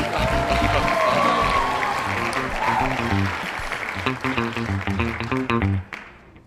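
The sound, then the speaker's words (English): Audience applause and cheering as a funk duo of brothers is welcomed onstage, a dense sustained wash of clapping over rhythmic music that fades near the end. “All right, put your hands together and welcome these brothers out.”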